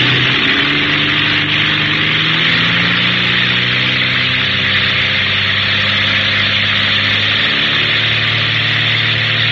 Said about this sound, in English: Quickly now, you shift to full feathering on the propeller and open up the throttle